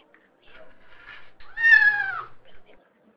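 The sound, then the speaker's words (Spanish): A cat meows once in a single drawn-out harmonic call, loud and clear and heard alone, after a few faint softer sounds. “Llegó el gato acompañado de toda su familia y juntos atacaron todo el cortejo de ratones.”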